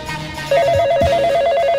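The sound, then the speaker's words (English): Electronic telephone ringing on a call-in line: a rapid, high warbling ring that starts after a brief lead-in and repeats steadily as evenly spaced pulses over a constant bed of lower sound. “The Yak Shack line is ringing.”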